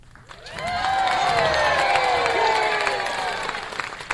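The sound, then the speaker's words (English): Audience cheering and shouting, with high children's voices among them, for Mike Wazowski at the Monsters, Inc. Laugh Floor show. The loud, sustained roar swells within half a second and holds steady before easing slightly at the end. “And now, make some noise for your monster of ceremonies, me, Mike Wazowski!”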